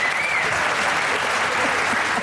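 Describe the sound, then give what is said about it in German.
Applause fills a theater as a dense, steady wash of clapping that holds at an even, fairly loud level throughout, with no distinct breaks. “das ist ein Applaus”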